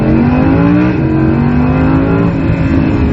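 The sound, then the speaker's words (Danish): An Audi R8's naturally aspirated V10 revs hard on a mountain road in the Dolomites. The engine roar is loud, steady and continuous, with a strong harmonic drone and no voices. “som I nok kan høre, så er det her en sugemotor. Det er en suge V10.”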